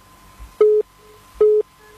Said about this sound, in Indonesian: Kita langsung menyapa untuk penelpon yang saat ini sudah berdering.